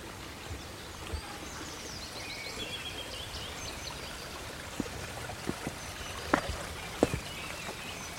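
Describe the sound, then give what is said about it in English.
A small mountain streamlet flows through oak woodland on Sugar Loaf mountain, a continuous steady babble and trickle with a few sharper splashes and faint high bird calls above it. “Oh, there's a little streamlet here. So I'm going to cross.”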